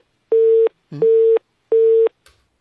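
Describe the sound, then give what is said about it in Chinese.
A telephone busy tone after a hung-up call sounds as three steady, evenly spaced mid-pitched beeps, clean and loud against silence. “这应该是误操作，不小心挂掉的，麻烦我们再连线一次”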